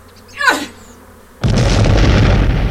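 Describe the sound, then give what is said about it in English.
An explosion from a device lobbed into a swarm: a falling whistle, then a sudden loud burst that turns into a sustained roaring rumble lasting to the end. “in an explosion of indeterminate force.”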